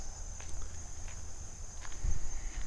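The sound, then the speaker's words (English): Footsteps on the ground while walking through woods: a few soft, scattered steps with a couple of heavier low thuds near the end, under a constant high-pitched whine and steady outdoor background. “Alright, so I'm walking back through the foresty bits here. Looking on the ground,”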